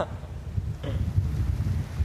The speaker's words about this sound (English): So what do you think of all this wind? It's making the waves huge.